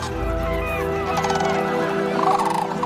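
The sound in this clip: Common cranes calling on migration toward their wintering grounds: loud, resonant, harmonic honking and trumpeting calls that carry on continuously, with no talk over them.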